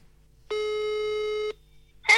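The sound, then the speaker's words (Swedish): A telephone ringing tone sounds while someone places a call: one steady, single-pitched tone lasting about a second, then silence, and a brief burst of voice at the very end. “ska vi bara ringa henne?”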